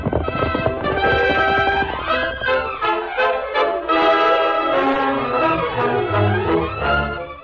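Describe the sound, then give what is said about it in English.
Hoofbeats of horses galloping away at the start of an all-night ride in an old Western drama. The quick clip-clop runs beneath loud, full orchestral music that plays continuously throughout. “Ready to travel, Tonto? Me ready. I hope we can reach Littlefield on time. Steady, big fellow. We ride all night, huh? Yes. Come on, Tonto. Come on, Silver. Come on, Scout.”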